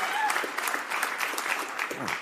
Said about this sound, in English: finally, it sounds like a full crowd when I did that.